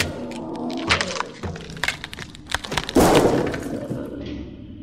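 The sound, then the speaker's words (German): A lamp is smashed and its glass breaks: a sharp crash with a burst of shattering partway through. Many short knocks and thuds surround it. “Du Riesenteddy musstest ja unbedingt die Lampe tranchieren.”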